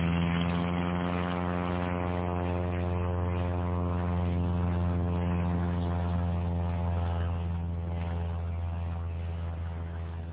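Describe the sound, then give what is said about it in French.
A propeller airplane engine drones loudly and steadily, a thick buzzing hum rich in overtones. It holds an even level throughout and eases slightly toward the end, with no voices. “Par miracle, le moteur commence à tourner. L'avion démarre et après quelques hésitations bien compréhensibles, accepte de s'écouler.”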